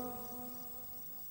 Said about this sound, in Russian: Правда, что ли, сверчки, да, дядя Влад? Похоже, похоже, да.